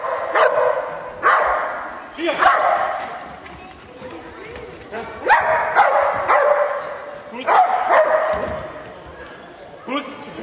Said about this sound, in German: Eine Vorführung zeigte Andreas Stute mit Hund Erna vom Eisleber-Tierheim am Sandgraben.